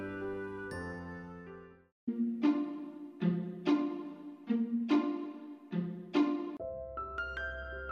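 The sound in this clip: A school bell chime at the end of break time plays a melodic sequence of many ringing electronic tones. The notes sound one after another in a steady pattern, each decaying before the next, and the whole chime is faint.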